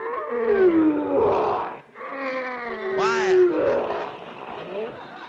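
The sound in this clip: Lion named Leo roaring in a circus cage inside a tent: long, harmonic, growling roars with a short dip between them, the second one rising into a harsher, strained snarl.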